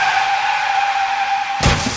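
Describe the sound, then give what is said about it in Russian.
Car tires skid under hard braking, giving a steady, piercing squeal that holds for over a second. A sudden loud, noisy burst then takes over near the end. “Что из силы, ты поверь мне, выжимаю тормоза.”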